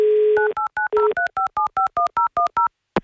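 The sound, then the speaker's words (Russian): A telephone number is dialed on a touch-tone phone: a steady dial tone gives way to a rapid, regular run of many short dialing beeps, ending in a single sharp click. “Ну что же, мы попробуем дозвониться ему еще раз.”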